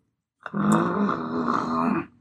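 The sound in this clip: A dog growls in one sustained, low, rough rumble that holds steady and fairly loud for about one and a half seconds before trailing off.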